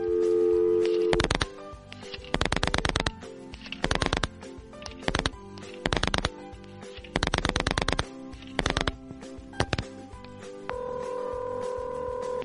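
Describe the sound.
A telephone being dialled: a steady tone, then sharp bursts of clicks in quick groups that repeat many times, ending in another steady, higher tone.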